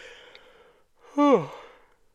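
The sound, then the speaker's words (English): A tired person's yawn, a brief voiced groan that slides down in pitch and trails off, standing out against near-silence. “I'm recording this in the evening, so I'm a little tired, but even still, I'm sorry for all the yawning.”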